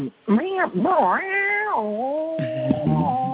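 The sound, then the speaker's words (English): A person's voice imitates an elongated cat meow during a film voice-looping session: a drawn-out, whiny vocal cry with sliding, wavering pitch that holds almost without a break for about three seconds. “that's a straight meow kind of, but elongated”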